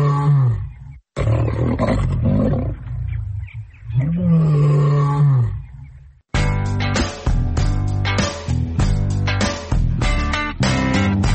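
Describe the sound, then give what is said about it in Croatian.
Roaring of a young lion cub that had been searched for in the hills above Budva, Montenegro: rough, moaning roars repeated several times, loud, with wavering pitch, followed by a dense, loud stretch of sound. “Kakav lav, strašan lav. Pa nije baš strašan, ali bit će kad poraste.”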